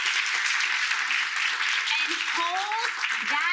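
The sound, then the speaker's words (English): Audience applause in a room during a talk: dense, steady clapping throughout, with brighter voices or cheers rising over it toward the end. “So I want you to take what you just did, give yourselves another round of applause,”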